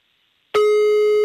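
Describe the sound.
A telephone tone sounds while a caller is being dialed: silence for about half a second, then a steady, loud electronic tone switches on abruptly and holds unchanged to the end.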